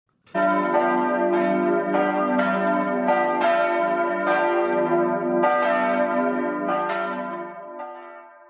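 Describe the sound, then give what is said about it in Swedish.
Church bells ring in a continuous peal of many overlapping metallic strikes, rich and resonant, with long ringing tails that gradually fade toward the end. “Jag gillar ljudet av klockor.”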